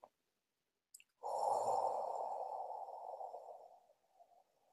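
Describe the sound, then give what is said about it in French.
A long breath during a guided meditation exercise: a soft, airy rush that begins abruptly and gradually tapers off over about three seconds, after a couple of faint clicks. “Inspire les énergies d'en haut, d'en bas et vous expirez.”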